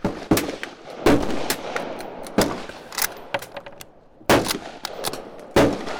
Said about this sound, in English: First two shots have not been amazing. No idea if I hit it or anything. So my first shot was with the old Russian rifle.